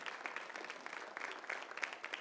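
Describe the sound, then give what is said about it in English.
Church audience applauding during a sermon: soft, continuous clapping with many overlapping hand strikes at a steady, fairly quiet level. “That's a good place to clap right there.”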